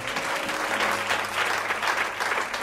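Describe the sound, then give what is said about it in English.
A church audience claps its hands for God after a prayer and amen. Loud, dense applause continues evenly for a couple of seconds. “Let's give God a hand clap.”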